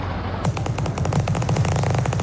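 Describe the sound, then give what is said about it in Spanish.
Machine-gun fire from gangsters shooting: rapid, evenly spaced bursts that rattle on continuously at a moderate level, with a low tonal sound underneath. “¿Qué es eso? Pues que están disparando, pues mira, los están matando.”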